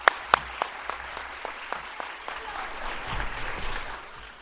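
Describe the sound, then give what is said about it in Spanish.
Audience applause at a music school's summer festival concert in Guadalix de la Sierra, opening with a few sharp separate claps that quickly thicken into steady, fairly loud clapping. “les damos un aplauso fuerte para que empiece el profe de batería”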